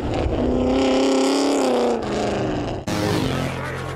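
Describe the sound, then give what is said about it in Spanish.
Race cars built to exceed 300 km/h speeding on a racing track: a loud, high, revving engine whine with rich harmonics for about two seconds, then an abrupt switch to a different harsh roaring engine. “Estos bólidos están diseñados para superar los 300 kilómetros por hora.”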